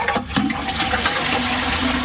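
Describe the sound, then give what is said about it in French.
Toilet flush with a water tank emptying: a steady, gurgling rush of water that stays loud and broad for the whole two seconds, with no voices. “ils regardaient quand les cuves d'eau se vidaient pour savoir quand les gens allaient aux toilettes pendant un film.”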